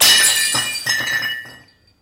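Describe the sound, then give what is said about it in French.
A plate smashed at a family dinner table: a bright crash of breaking crockery followed by a few tinkling clatters of shards that fade out after about a second and a half. “maman disposait toujours une autre assiette à côté de celle de mon père. Il avait le droit de la briser.”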